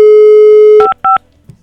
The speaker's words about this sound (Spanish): Ya estamos marcándole y vamos a despertarla.